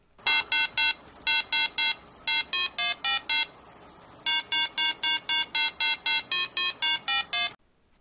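Merlin, a 1970s handheld electronic game, gives off many crisp electronic beeps in quick, evenly spaced runs of bright, stepping tones. A brief pause falls midway, then the rapid beeping continues before stopping abruptly.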